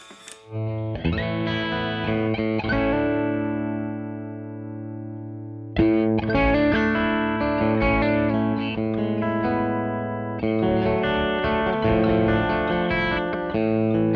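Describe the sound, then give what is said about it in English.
Clean electric guitar tone played through an amp and pedal: a few chords, each strummed and left ringing with a full, even sustain, at steady loudness. “For a, you know, a very plain, comfortable clean tone, because you're setting that up as the platform to optimize the sound of your pedal. Right. So if I want a clean tone,”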